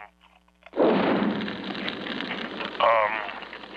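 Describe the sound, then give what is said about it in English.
Drapes catching fire with a sudden whoosh that turns into a sustained, loud roaring rush of flames, with a voice starting to speak over it near the end. “Now the drapes are on fire.”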